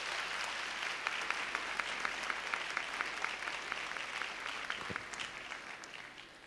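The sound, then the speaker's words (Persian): Seminar audience applause at a calm-living seminar: many hands clapping in a dense, steady wash for several seconds, easing off slightly toward the end. “یه دست خوب به افتخار حضور سبزتون بزنید”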